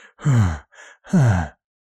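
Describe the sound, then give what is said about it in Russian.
Heavy, voiced breathing of a demon: two long, loud, groaning exhalations with a shorter, fainter breath between them, then silence. “Сзади послышалось тяжелое дыхание демона.”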